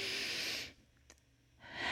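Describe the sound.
A deep breath drawn in during a breathing exercise gives a loud, airy hiss that stops for about a second, then resumes just as strongly.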